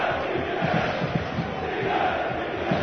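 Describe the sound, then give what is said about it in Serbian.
Football fans chant together on both sides of the stadium during a Red Star Belgrade league match, a crowd of about 30,000. A steady, loud roar of massed voices carries faint rhythmic pulses of chanting. “Čujete navijače i njihova skandiranja na jednoj i drugoj strani.”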